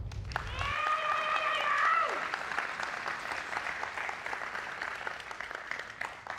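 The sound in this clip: Audience applause welcoming a speaker: many hands clapping steadily at moderate volume, with a voice cheering over it early on before the clapping carries on alone and thins a little.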